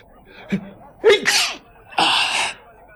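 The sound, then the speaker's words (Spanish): A character with a cold sneezes. A couple of catching, gasping intakes build up to one loud, breathy burst at the end, with no talk. “¡Ay! Vaya, ya he cogido otro catarro. Y los estornudos me pueden delatar.”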